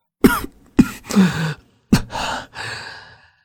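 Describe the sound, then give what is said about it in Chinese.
A man coughs a few times, sharp harsh bursts spaced unevenly, with rasping, breathy exhalations and sighing breaths between them, trailing off into a drawn-out wheezy exhale. “白毅咳嗽了几下”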